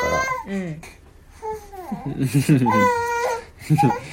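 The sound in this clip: A baby fusses and cries in short wavering bursts, mixing whimpers with babbling sounds, its voice rising and falling between brief pauses.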